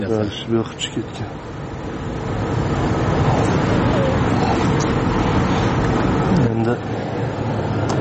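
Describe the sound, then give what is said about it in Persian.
Steady, low traffic rumble from a queue of cars waiting at 4 a.m. to buy natural gas. The dense hum continues throughout, with brief voices near the start and end. “منه این نوبت ماشین ها برای خریدن گاز طبیعی است. اینجا نوبت شروع شده تا با اون طرف میرسد.”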